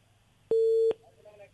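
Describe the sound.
A busy tone as a phone call into a live radio request show drops: a single steady, mid-pitched electronic beep lasting under half a second, clearly louder than the low hum around it.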